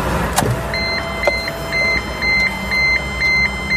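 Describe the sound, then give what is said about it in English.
A car's ignition warning beep chimes in a steady, repeating series of short high-pitched tones after a click and a brief thump as the ignition is switched on, with low engine-like rumble beneath and no talk. “he switches on the car ignition, and there's that annoying beep that he doesn't understand.”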